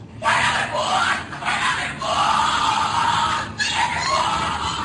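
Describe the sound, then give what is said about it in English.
Screams and raised voices during a Skull and Bones initiation ceremony come in a few loud, drawn-out cries separated by short breaks. “What you're hearing is the first recording ever made of the Skull and Bones initiation ceremony. It has never been broadcast before.”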